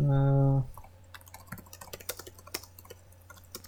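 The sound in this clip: Computer keyboard typing during a web search: rapid, irregular clicks and taps continue after a short voiced sound at the start.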